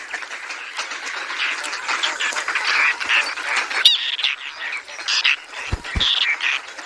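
A young crested lapwing chick calling at a large bird breeding site in Doñana National Park on the Mediterranean coast: harsh, rapid squawking calls overlapping almost continuously and fairly loud, with two low thumps near the end.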